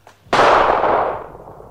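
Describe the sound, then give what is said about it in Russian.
A single gunshot fired into the air in a radio drama: one sharp, loud crack with a long, smoothly fading tail, preceded by a faint brief noise. “Да зачем же ты стрелял, Аким? Да я в воздух.”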